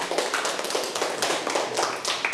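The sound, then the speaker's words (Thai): A school class claps hands for a classmate, a dense, steady patter of many light claps that holds at an even moderate level for a couple of seconds. “ปรบมือให้เพื่อนค่ะ”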